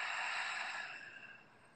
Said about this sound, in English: So take a deep breath in with me. Exhale.